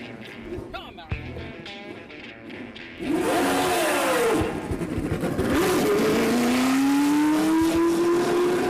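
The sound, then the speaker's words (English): A 1978-79 black and gold Lotus race car engine fires up on the track at Circuit of the Americas during a ribbon-cutting ceremony. A quieter stretch gives way to a sudden loud roar, and the pitch climbs, dips and climbs again as the engine revs. “that was Mario Andretti's 78-79 black and gold Lotus firing up on the track at Circuit of the Americas”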